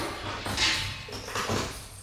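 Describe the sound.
A door bolt slid shut, heard as two fairly faint scraping bursts in quick succession over a low background.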